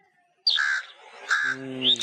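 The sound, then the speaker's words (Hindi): A crow gives three harsh, rasping caws in quick succession, separated by short gaps, with a brief low voice overlapping the later calls. “कौवा है ये, कौवे की आवाज सुनी भी होती है इसलिए जल्दी से बता दिया गया ये कौवा है।”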